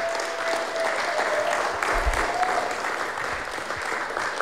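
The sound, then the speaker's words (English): Audience applause at a live concert, given for the sound engineer between sets: steady, sustained clapping from the crowd at an even, moderate level. “please give a hand to our sound engineer, Lou Gross.”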